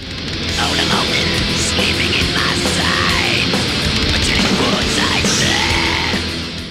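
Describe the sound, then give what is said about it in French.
Shrieked, high-pitched black metal vocals from the second wave of the genre ride over a loud, dense wall of distorted guitars and drums. The sound stays continuous and saturated throughout. “Un chant crié aigu et perçant.”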